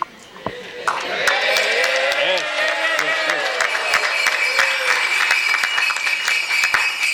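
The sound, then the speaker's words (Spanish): Applause at a festival launch: a crowd claps in a dense steady patter that swells after a brief start and carries on loudly, with a voice talking over the clapping early on. “Ya, aplauso ya”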